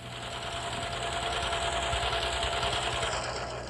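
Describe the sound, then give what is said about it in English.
Sewing machine running in a steady, unbroken whir with a low mechanical hum underneath, quiet and continuous. “I only have a little bit more to sew, and I'll be all finished”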